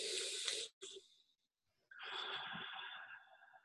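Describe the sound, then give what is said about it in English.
A deep breath in and out during a guided group meditation: two soft, airy breath sounds, the first ending in a short pause and the second longer and steadier, with no talking. “So everyone take a deep breath in and out.”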